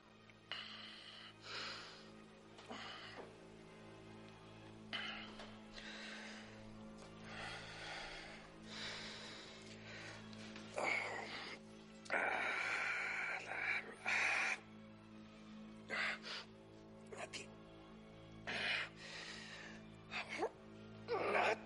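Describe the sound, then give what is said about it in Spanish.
Labored, rasping breathing from a person who sets down a spoon while eating tiramisu in front of the TV: many heavy, uneven gasps and snorting breaths over a steady low hum. “deja la cuchara y respira con dificultad.”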